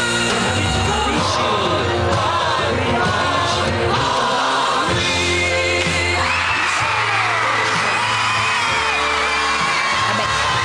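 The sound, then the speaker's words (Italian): Crowd screaming and whooping as the winner of a music contest is announced, a loud, sustained roar with shrill, high yells rising over it throughout. “sente solo l'urlo”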